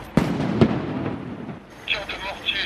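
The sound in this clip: Firework mortar shots fired during riots in a neighbourhood: two sharp, loud bangs close together, each followed by a rumbling tail, then softer sounds toward the end.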